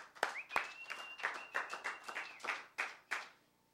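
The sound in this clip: Applause from an open mic audience welcoming a performer to the microphone: uneven, separate claps from a small crowd, with one voice calling out over them, thinning out toward the end.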